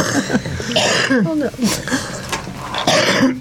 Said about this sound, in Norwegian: Da kommer jeg i hosten her også.